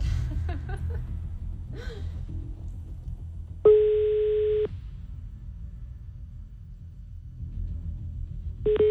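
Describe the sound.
Telephone tone on an outgoing call that is not answered and then hung up: a steady beep lasting about a second, a pause of low background noise, then another beep starting, with brief voices and a gasp earlier.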